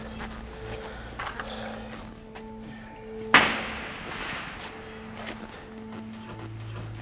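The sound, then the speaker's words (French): Police fire a single sharp, loud gunshot partway through, in a deserted area whose residents have left. The crack stands out against otherwise quiet, low background noise. “C'est la police qui tire, là?”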